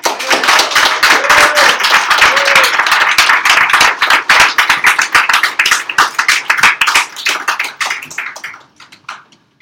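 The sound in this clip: An audience applauds a poet at a poetry reading with loud, dense clapping that holds steady for several seconds, then thins and fades out near the end.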